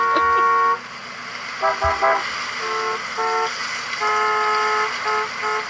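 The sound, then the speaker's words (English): Car horns honk repeatedly, mixing long blasts with quick short toots in an irregular overlapping pattern over a steady low traffic rumble. “Why are they all honking?”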